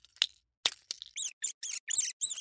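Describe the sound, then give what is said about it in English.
A rodent squeaks as it escapes a mousetrap: a few scratchy rustling bursts, then five short, high, sharp squeaks in quick succession, each one separate and fairly bright. “This is the sound of a rodent escaping from your mousetraps.”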